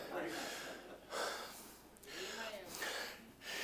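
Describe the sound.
Deep breathing, with a few slow, faint breaths drawn in and pushed out, breathy and airy, each swelling and easing away in a soft rhythm.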